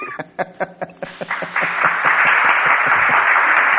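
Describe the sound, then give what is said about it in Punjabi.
Audience applause that opens with a handful of distinct, spaced claps and quickly swells into steady, dense clapping that carries to the end. “ਤੇ ਤਾੜੀਆਂ”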